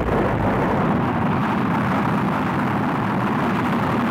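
A rocket launching, a continuous loud, dense roar that holds steady and unbroken throughout, with no voices.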